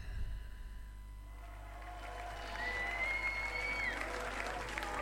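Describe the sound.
A live concert audience at a German band's show, preserved on a double LP, claps and cheers in a soft, even wash, with a sustained whistle cutting through near the middle.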